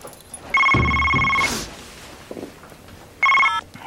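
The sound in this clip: A telephone rings twice: a long, steady electronic ring, then a shorter one after a pause.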